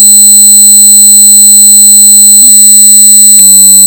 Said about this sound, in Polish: Mamy przygotowany dźwięk o częstotliwości 8000 Hz, który brzmi tak.